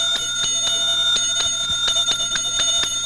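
Radio station time chime: a quick, steady run of many bright, ringing bell strikes over sustained high tones, moderately loud and heard on its own without talk.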